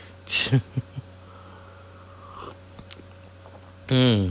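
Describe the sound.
Crunching of Ice Breakers mints: a few short, crisp bites early on, then quieter chewing over a low steady hum, with a voice starting briefly at the end.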